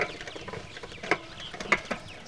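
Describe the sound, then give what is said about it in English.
Young birds that are nearly old enough to fly, handled in a lowered nest housing, give soft scattered peeps and chirps with a couple of sharper, louder calls, over low rustling. “As you can see, we can lower the housing down and get hands on the birds here.”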